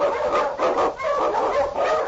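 Husky sled dogs bark in a rapid, continuous string of loud barks and yips, bursts following one another with barely a pause.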